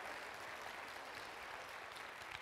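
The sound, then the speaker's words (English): A church audience applauds a young man with glasses who raised his hand, a faint, even wash of clapping that holds steady throughout. “Yay, give him a hand.”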